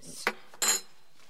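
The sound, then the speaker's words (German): Two plates are set down on a table while it is laid for a meal, giving two short, bright clinks of crockery separated by a brief pause. “Ein Teller. Zwei Teller.”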